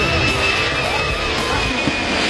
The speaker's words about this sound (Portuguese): Baixa a cabeça aí, ó, avião aí, ó.